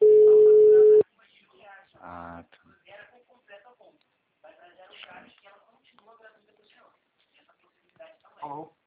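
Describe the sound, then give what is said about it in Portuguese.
A telephone call's ringing tone sounds as a single loud, steady, mid-pitched beep lasting about a second, then gives way to people talking. “Agora tô chamando.”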